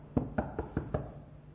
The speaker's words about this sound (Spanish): llama a la puerta